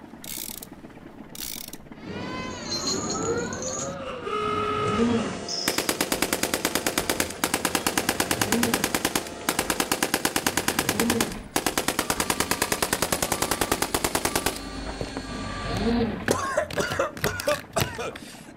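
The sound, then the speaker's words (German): Long rapid bursts of Heckler & Koch machine-gun fire, loud and evenly chattering, come in several runs separated by brief gaps, with mechanical clanks and whistling tones before and after. “Sind wir jetzt tot? Nee, die Kanone ist von Heckler und Koch.”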